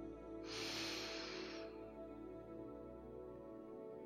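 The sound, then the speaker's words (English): One long, breathy inhale of about a second, rising and fading softly over a steady, quiet tonal backdrop. “Inhale.”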